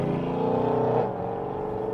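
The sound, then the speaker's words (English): A very loud car passes on a Shanghai street, its engine roaring with a dense harmonic growl that drops to a lower, steadier pitch about halfway through. “That's a very loud car. But yeah. More and more loud cars in Shanghai.”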